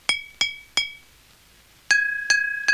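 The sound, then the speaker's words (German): Pencil taps ring on two glass bottles, one holding a quarter litre of water and the other half a litre. Three bright clinks on one, a pause, then three on the other, which sounds lower and rings longer. “Und dann kommt das große Experiment. Man schlägt mit einem Bleistift gegen beide Flaschen.”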